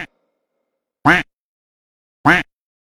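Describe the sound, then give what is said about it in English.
A duckling quacks in two short, sharp, evenly spaced calls, each a bright, nasal burst separated by silence, with a clipped fragment of another call at the very start. “中国的 baby duckling 小鸭宝宝是这么叫的：嘎嘎嘎。嘎但是国外的鸭子是这样叫：quack quack quack。”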